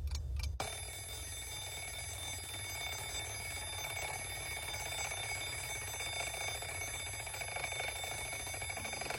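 An alarm clock rings to wake someone for work: a steady, bright electronic ringing starts after a brief moment of quiet and continues unbroken to the end, with no voices.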